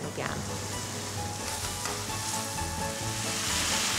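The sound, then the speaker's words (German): Food fries slowly over a low flame in a pan deglazed with sweet dessert wine, giving a continuous, even crackling sizzle with a faint low hum beneath it. “Das muss sehr langsam braten, auf niedriger Flamme.”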